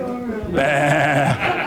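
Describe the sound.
A sheep bleats, a loud, wavering, quavering cry that swells and holds for under a second, after a softer tonal lead-in, with no words over it.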